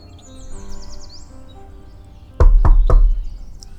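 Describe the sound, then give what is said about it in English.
Three quick, loud knocks on a front door from an ice cream salesman going door to door, landing in an even rhythm after a stretch of quiet with faint birds chirping. “Ronald would crawl from door to door, knocking them and waiting for the occupants to open up.”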